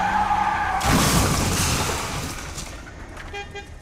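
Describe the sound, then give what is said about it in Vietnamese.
A vehicle swerves and crashes into an oncoming truck. A steady horn blares first, then a sudden loud burst of harsh skidding noise slowly fades, and faint horn-like tones return near the end. “lạng tay lái mà đâm sầm vào một chiếc xe tải đang đi ngược chiều.”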